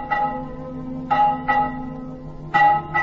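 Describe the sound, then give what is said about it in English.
An old, neglected bell is rung four times at uneven intervals. Each strike is a bright metallic clang with a sustained, slightly flat tone that rings on between the strikes. “And he picked up the widow bell. My, what a lovely sound.”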